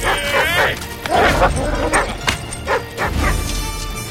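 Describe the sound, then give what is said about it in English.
A dog barks and yips as it chases a bicycle along a road. The sharp barks come in repeated bursts, mixed with voices and other busy sounds. “A dog chases them.”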